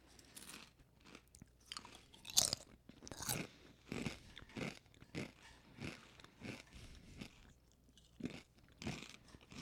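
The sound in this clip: Crunching and chewing of thin, twisty sweet potato chips: many crisp bites and chews in an uneven rhythm, fairly quiet and without talk.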